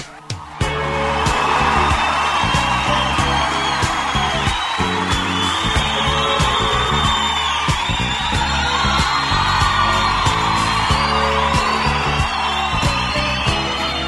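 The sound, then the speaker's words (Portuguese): A crowd cheers and whoops loudly for a performer at a rap show, a dense, sustained roar that runs nearly unbroken for about fourteen seconds. “Aí, tá bonito, né, mano? Todo mundo aplaudindo e tal.”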